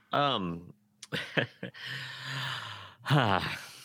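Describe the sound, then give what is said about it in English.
A long, deep breath drawn in by someone struggling to hold back laughter: a soft, airy hiss lasting about a second, set between brief voiced sounds before and after it. “Now I'm taking a deep breath here”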